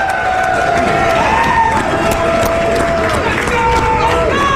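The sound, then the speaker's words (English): A large live audience of thousands cheers at a sports talk studio event, a loud continuous roar with whoops and shouting voices rising and falling over dense crowd noise. “You know what's shocking? That we got 15,000 people in here today. That's what it sounds like.”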